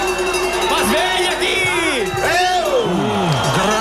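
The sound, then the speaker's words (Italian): Football stadium crowd cheering near the end of an open match, a continuous roar of many voices with scattered whoops and shouts, while a commentator talks over it. “senti il pubblico”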